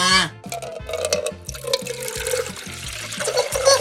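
Water is poured into a glass set on a table, a continuous splashing gurgle that stays fairly loud throughout the short pour. No talk is heard.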